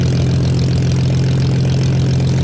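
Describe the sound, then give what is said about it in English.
Spitfire aircraft engines running at Biggin Hill, a loud, steady low-pitched drone with a strong hum and broad roar that stays unchanged throughout. “Well, we can see the engines going. Yes, we certainly can see those engines rearing up, these majestic aluminium, I think, aeroplanes.”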